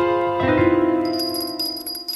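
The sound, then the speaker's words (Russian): A doorbell rings in the front hall: a sustained metallic tone with bright, shimmering overtones that lingers through the whole clip. “Но вот в передней раздается звонок.”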